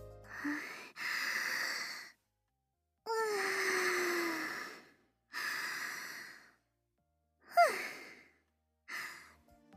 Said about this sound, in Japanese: まずは深呼吸でも。